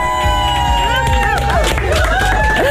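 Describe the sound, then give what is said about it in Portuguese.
A radio station team bursts into the studio, cheering and singing happy birthday. Several voices sing loudly with sliding pitches, mixed with whoops and lively crowd-like cheering throughout. “É que aqui a equipa da M80 entrou toda aqui pelo estúdio para me cantar os parabéns.”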